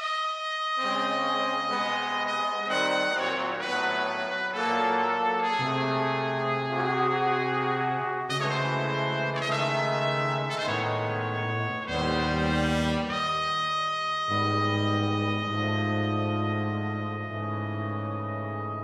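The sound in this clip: A big band horn arrangement played by five or six brass players: loud, full sustained chords that shift every second or two in a stately progression, with no talking.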